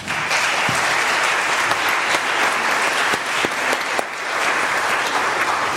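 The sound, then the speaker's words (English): Audience applause for young people in a church: dense, steady clapping that holds at an even, loud level throughout, without voices standing out. “Let's hear it for these young people.”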